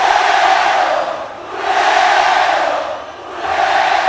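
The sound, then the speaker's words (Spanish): A crowd chants loudly in unison, many voices together in a rhythmic chant that swells and dips in repeated waves, about three surges over a few seconds. “Cuando el público empieza a entonar cánticos europeos, que se oiga con huevo, con huevo.”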